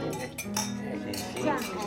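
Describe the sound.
Glasses clinking together in a toast at a Ferragosto lunch, giving a few light, bright chinks. They are faint and soft overall and spread across the moment.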